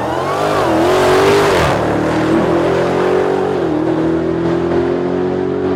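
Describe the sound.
A Dodge Demon accelerating hard from a dead stop, a car rated 0 to 60 in 2.3 seconds. The engine roar is loud and continuous, and its pitch climbs, dips, then climbs and dips again.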